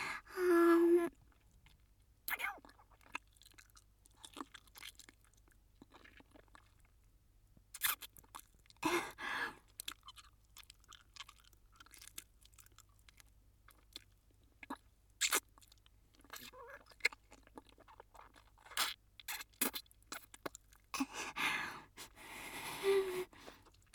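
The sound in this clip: Crunchy food being bitten and chewed in irregular bursts of crisp crunching, separated by quiet pauses. The bursts come in a loose rhythm and are close and fairly loud against near silence.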